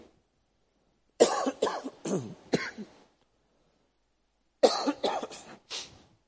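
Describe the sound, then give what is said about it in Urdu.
A man coughs in two separate bouts, each a cluster of several harsh, chesty coughs, with a silent pause between them and no talk. “جی معاف کیجیے گا, آج آپ کو تھوڑی سی مشقت زیادہ اٹھانے پڑے گی میری کھانسی کی وجہ سے.”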